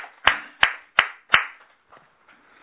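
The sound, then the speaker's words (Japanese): Four sharp, evenly spaced hand claps at a church gathering celebrating couples' wedding anniversaries, each crisp and loud, followed by a few faint, scattered claps. “三宅博美さん、礼二さんの結婚41年、それから教会長夫妻の結婚9年の記念日ですので、盛大な拍手でお祝いをしまし”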